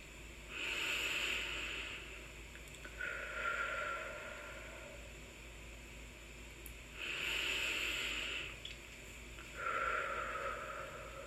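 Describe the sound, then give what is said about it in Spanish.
Two slow, deep breaths during a guided relaxation exercise. Each is a soft, hissing inhale followed by a lower, airy exhale, faint and unhurried, with long quiet gaps between them. “Vamos a respirar dos veces profundamente.”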